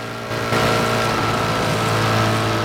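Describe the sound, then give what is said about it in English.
A motorbike accelerates across sand, its engine jumping from a quieter start to a loud, sustained roar about half a second in and holding at full power to the end. “Bert works the throttle and is soon accelerating at a tremendous rate. His bike eats up the sand”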